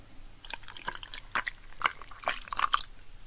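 Liquor poured over ice for a drink on the rocks, faint trickling with a few small drips and light taps, quiet throughout.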